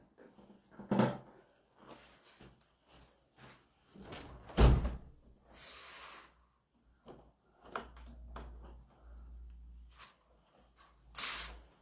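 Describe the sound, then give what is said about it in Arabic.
A window is closed, giving a series of scattered bumps, rattles and sliding scrapes with one louder clunk midway, separated by quiet gaps. “اسمحوا لي يعني حتى لا أتضرر أغلق الشباك خلفي.”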